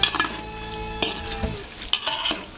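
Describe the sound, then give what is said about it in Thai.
Pork fat sizzles gently as it renders in a pan over low heat, with a few clinks and scrapes of stirring against the pan. “เราจะเจียวมันหมูด้วยไฟอ่อนๆจนกว่าจะเริ่มสุกเหลือง”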